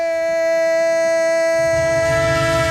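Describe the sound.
A train sound effect: a sustained, chord-like horn tone holds throughout, and a low rumbling rail noise joins in partway through. No voices are heard.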